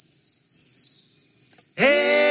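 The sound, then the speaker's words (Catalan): High, swooping chirps of a swallow singing in its nest, a few thin twittering phrases that are then cut off abruptly by a loud, sustained harmonic tone. “Ei, m'ha semblat sentir una oreneta cantant dins el niu.”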